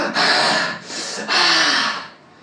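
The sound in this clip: A voice imitates an anguished groan, like someone in pain who cannot breathe, as a few loud, breathy, rasping exhalations with a faint low moan near the end.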